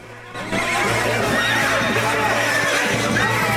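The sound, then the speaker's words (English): Horses neighing and whinnying loudly as they close in and rear up, shrill overlapping calls that fill the whole clip without pause. “His back to the water, Stripes watches the horses close in.”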